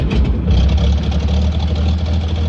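The engine of a newly designed rail vehicle runs at a steady pace, a loud, low, continuous rumble with an even throb that holds unchanged from start to finish.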